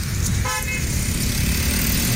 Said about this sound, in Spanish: Hay mucho tráfico, dice el amigo Freddy Daniel Bravo.